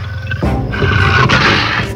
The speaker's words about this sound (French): À l'aide! Il y a un lion! À l'aide! Il y a un lion! Un lion! Il y a un lion!